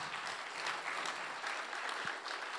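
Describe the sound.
Steady audience applause welcoming a group of friends onto a stage, even and sustained for the whole stretch, with no voices standing out.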